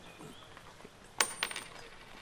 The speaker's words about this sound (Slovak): Čo to? Len jedna minca?